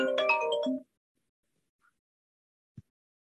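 A phone ringtone from an unknown caller rings during a committee meeting. It is a short, bright melodic burst of layered tones lasting under a second. Silence follows, broken only by a faint click.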